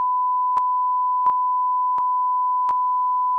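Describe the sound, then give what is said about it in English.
Censor bleep: one unbroken, steady, high-pitched sine tone sounds alone throughout, with a few faint, evenly spaced clicks beneath it. “this is a lot of stuff to bleep now out. Now it's going to sound like beep.”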